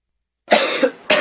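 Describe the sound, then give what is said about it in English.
Coughing from someone with a virus, or from someone with a tickle in the throat after eating a chili pepper: a few sharp, harsh coughs in quick succession after a short silence, fairly loud and with no talk over them. “And one of these coughs is from someone with a virus, and another is from someone that just ate a chili pepper and has a tickle in their throat.”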